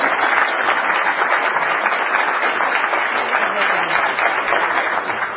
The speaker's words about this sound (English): Would you please welcome me, join me in welcoming, there we go, Mary Ann Gale.